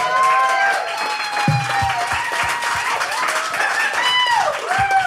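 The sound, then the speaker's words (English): An audience gives a round of applause to welcome a guest, a continuous wash of clapping with a few sharper individual claps standing out, while a person talks over it. “let's give a round of applause for Chair Jane”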